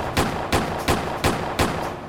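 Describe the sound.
Five sharp gunshot sound effects in a comedy sketch about shooting at fruit fire at an even, steady rhythm. Each is a loud crack with a short decaying tail, and no voices come between them.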